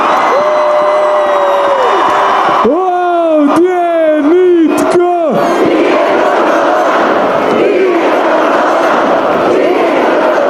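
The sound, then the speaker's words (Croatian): Handball fans roar and chant in unison while greeting their national team coach: loud, dense crowd voices hold sung tones that rise and fall, then break into broad, continuous cheering. “A erupciju oduševljenja izazvao izbornik Dagur Sigurdsson koji je navijačima poručio da nisu normalni.”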